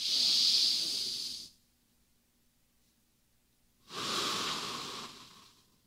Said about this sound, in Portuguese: Enche de ar, agora solta. Solta tudo. Enche de novo.